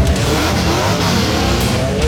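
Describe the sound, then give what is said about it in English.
A race car engine revs at a sprint car racing night at a speedway. Its loud, sustained roar holds steady and climbs slightly in pitch near the end. “Ready for an action-packed full-throttle night of racing tonight when the Action Sprint Tour races into Buxton Speedway”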